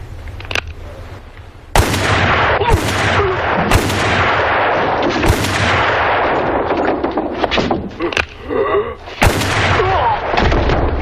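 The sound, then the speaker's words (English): Loud, sharp gunshots ring out in a tense confrontation, several spaced single cracks each followed by a rumbling decay, with continuous noise between the shots. “When you have to shoot, shoot, don't talk.”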